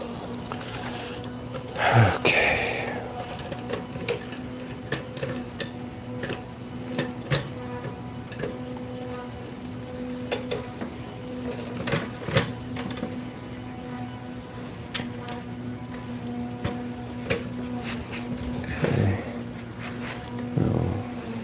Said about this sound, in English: Put the trailer hitch on that side and the axle nut over that. And now I'll put the wheel back on.